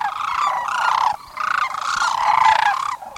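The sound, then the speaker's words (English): Sandhill cranes give rich, rolling, trumpeting calls, loud and nearly continuous, with a short break before more long calls follow. “The crane's exquisite dance complements beautifully their rich, rolling calls, one of nature's most memorable anthems.”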